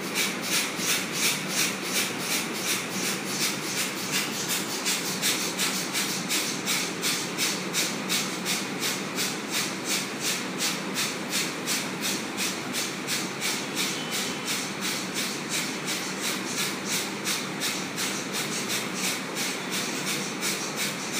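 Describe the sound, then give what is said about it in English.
Forceful exhalations from Kapalabhati fire breathing, done with the mouth closed: many sharp, evenly spaced breath bursts in a fast, steady rhythm that holds at the same loud level throughout, with no talk. “Kapalabhati, fire breathing exercise. Keep your arm on your waist, upper waist. Hold your upper waist with both hands. Raise your head up. Close your mouth and shoot.”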